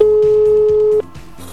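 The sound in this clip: A telephone tone sounds as a number is dialled: one steady, mid-pitched tone that holds for about a second and then cuts off abruptly, over rhythmic background music.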